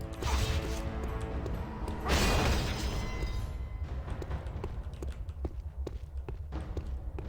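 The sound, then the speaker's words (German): An enemy's sword flies across the room in a multiplayer video game fight: an early loud swoosh and crash amid continuous mechanical clatter, thwacks and rapid footstep-like clicks. “Ach, das ist Schwert vom Gegner, das ist einfach durch den halben Raum geflogen.”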